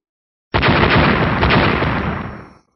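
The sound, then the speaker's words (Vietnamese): A single explosion sound effect in an audiobook. One sudden, loud blast with a broad roaring rumble tapers away over about two seconds before cutting to silence. “Từng âm thanh nổ tung vang lên liên tiếp không ngừng, vô số đất đá bị thổi bay tứ tán.”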